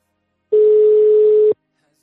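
A telephone tone while a number is dialed for a call: one loud, steady, pure beep lasting about a second, beginning and ending abruptly in silence.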